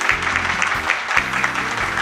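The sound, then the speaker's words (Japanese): Audience applause greets a company president at a corporate investor presentation: dense, continuous clapping that stays steady and fairly loud for the whole stretch, with no voices over it. “皆様大きな拍手でお迎えください。”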